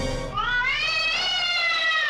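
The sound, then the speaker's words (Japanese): A stray cat gives one long, drawn-out meow that rises in pitch and then holds, loud and clear with no other sounds. “そこにはなんと野良猫が。”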